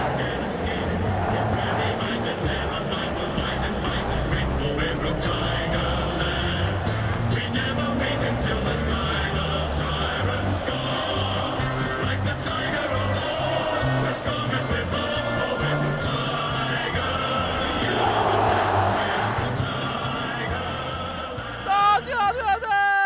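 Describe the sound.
Richmond Tigers fans cheering at a preliminary final: a continuous, dense crowd roar that stays loud throughout and swells briefly near the end.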